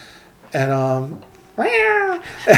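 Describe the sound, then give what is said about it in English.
A cat meows twice in long, drawn-out calls with a falling tail, and a third meow begins just as the sound ends. There is no other noise apart from a quiet background hum. “not the first time the cat's intruded”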